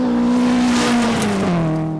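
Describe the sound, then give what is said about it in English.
A 1974 Datsun stock rally car roars loudly and continuously during the East African Classic Safari Rally across Kenya and Tanzania. Its engine pitch falls slightly toward the end. “That's his 1974 Datsun at the East African Classic Safari Rally, a 4,000-kilometer stock car race across Kenya and Tanzania.”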